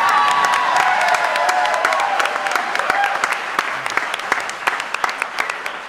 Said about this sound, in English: Well, hey, if we can clap for that.